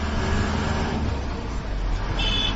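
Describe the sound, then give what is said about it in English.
Engine and road noise from an Indian-made Tata patrol vehicle driving through congested, potholed streets in Liberia, a steady low rumble with broad hiss throughout. “The patrol is being driven across congested and potholed streets by an Indian male driver in an Indian-made Tata vehicle.”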